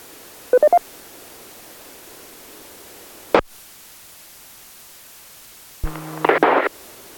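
DTMF touch-tones reset an amateur radio repeater: a quick run of short keypad beeps, a sharp crackle of static, then a longer burst of tones mixed with hissy radio noise.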